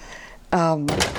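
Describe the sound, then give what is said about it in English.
A house door opens with a brief thunk and a short creaking, tonal squeal, followed by a burst of rustling noise, with voices present around it. “And we just walked back in the house, by the way. That's what that noise is, the door opening.”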